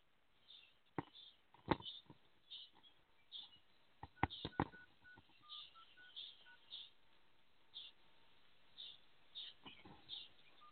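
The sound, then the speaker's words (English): Telephone keypad dialing tones as someone dials in to a call: a steady run of many short, bright beeping tones, evenly spaced, with a few sharper clicks mixed in, over a thin line. “I am going to dial in this way.”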